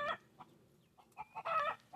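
Faint high peeping of a baby chick, a few short chirps scattered across the moment, then a longer, brighter run of chirping, heard alone.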